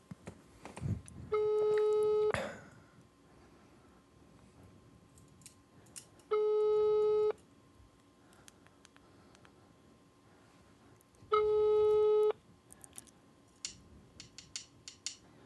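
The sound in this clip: Telephone ringing tone on a call nobody picks up: three steady tone bursts, each about a second long and several seconds apart, with faint clicks and scattered ticks in the gaps.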